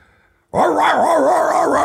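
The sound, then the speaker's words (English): A person vocally imitates drug-sniffing dogs reacting on a plane: one loud, sustained, wavering yelp that rises and dips in pitch for over a second after a brief silence. “So they put drug dogs on the plane. Well, of course, I smoke pot on the plane, so the dogs are,”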